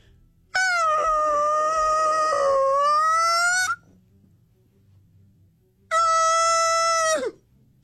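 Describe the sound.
A human voice imitates a whale call with two long, wavering moaning tones, the first about three seconds long and the second shorter, its pitch dropping at the end.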